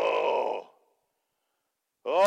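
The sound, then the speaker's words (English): An audience lets out a brief collective groan, a murmuring vocal swell lasting well under a second that fades into silence before a single voice starts speaking. “Oh, they're groaning. Everybody groan.”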